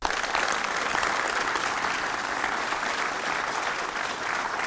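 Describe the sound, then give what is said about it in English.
An audience gives a lecturer a warm welcome with continuous applause. Dense, even clapping fills the whole stretch at a steady, fairly loud level without pause. “let's give a nice, warm, authentic welcome to Dr. David Whalen.”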